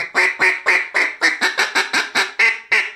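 A duck call blown as a greeter call, giving a loud, rapid run of about twelve nasal quacks in steady rhythm, with no voices.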